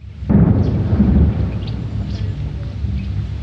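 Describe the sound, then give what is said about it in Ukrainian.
Own artillery firing: a single sudden deep boom, then a long rolling rumble that slowly fades under wind noise. “наша арта працює.”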